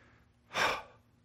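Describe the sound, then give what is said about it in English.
A single human breath, deliberately drawn as a demonstration, rises and fades as one soft, airy whoosh lasting about half a second. It is moderately loud against near silence, with no talking around it. “a mere breath is this. Are you ready? Here it is.”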